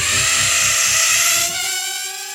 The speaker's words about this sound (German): Das ist eine Drohne. Eine kleine Drohne, aber eine nervige. Es ist so wie ein Insekt.